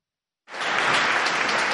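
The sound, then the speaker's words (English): Thunderous applause from lawmakers standing in Parliament in Ottawa to honour the Sergeant-at-Arms after a shooting, bursting in abruptly after a brief silence and holding loud and dense. “He was visibly emotional as lawmakers stood in thunderous applause.”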